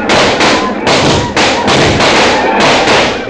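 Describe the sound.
A volley of gunfire erupts as soldiers open fire on attacking Apaches in a frontier battle scene: loud, dense shots overlap in repeated bursts without a pause, each merging into a continuous rattling roar.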